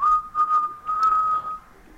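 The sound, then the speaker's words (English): A person whistles a children's song as a clear, steady string of short notes, held close to one pitch, that thins out toward the end. “He whistled Farmer in the Dell for you.”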